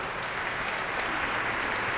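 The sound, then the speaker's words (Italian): Applause at the end of a concert of Beethoven's fourth piano concerto and another orchestral piece, a dense, steady wash of clapping that continues evenly throughout with no voices. “Danilo Comitini, che è presente per anche lui partecipare, diciamo, all'applauso finale insieme a Roberta Pandolfi”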